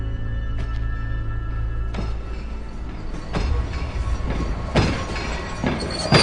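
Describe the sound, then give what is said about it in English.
A passenger train runs along the rails in Central Australia, producing a loud, continuous rumble with rhythmic wheel clatter and several sharp metallic bursts and squeals along the way. “Now the young woman, Robin, awakes on a passenger train”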